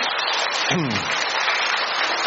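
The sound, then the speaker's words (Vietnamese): Applause from the crowd at a religious gathering, dense and steady clapping throughout, with a brief voice rising above it partway through. “một tràng pháo tay cho người chị em.”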